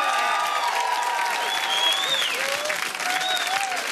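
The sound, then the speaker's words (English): Audience applause and cheering welcome a guest to the stage: dense, steady clapping with some whoops on top, holding an even loudness throughout. “Can we put our hands together and welcome to the stage the legend that is Gretel Cologne!”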